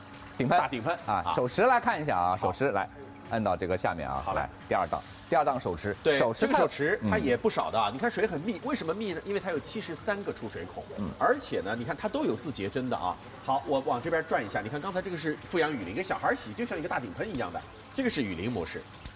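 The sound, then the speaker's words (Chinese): A handheld shower head with 73 outlets sprays a dense stream of water, giving a steady hiss that runs beneath a person talking continuously throughout. “顶喷，大顶喷啊，手持来看一下啊，手持来，按到这个下面啊，好来，第二档手持， 对， 这个手持它也不少的，你看水很密，为什么密呢？因为它有73个出水口”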